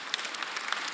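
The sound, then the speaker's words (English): Applause from a church audience during a morning service: a brief burst of dense, steady clapping at an even loudness. “Give it up for you guys where you're at. Can you give it up for them this morning?”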